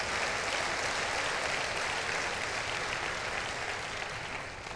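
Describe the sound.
Audience applause: dense, steady clapping from a crowd that holds at an even, fairly loud level and eases off slightly toward the end, with no voices.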